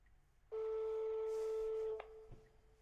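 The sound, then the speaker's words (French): A telephone shutting off: a steady, pure electronic tone sounds for about one and a half seconds and then cuts off abruptly with a sharp click, leaving faint low noise behind. “Ah, j'entends le téléphone qui s'éteint.”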